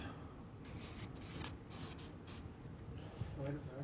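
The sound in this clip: Pen strokes scratching and squeaking across a board as a chart is written on it, a run of many short bursts with brief gaps, fairly faint.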